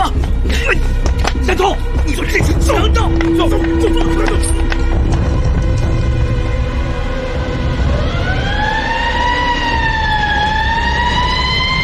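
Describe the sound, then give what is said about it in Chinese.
A shrill police siren wails over a scene of commotion: busy, clattering noise fills the first part, then a loud siren tone rises and falls in long sweeps. “在凄厉的警笛声中”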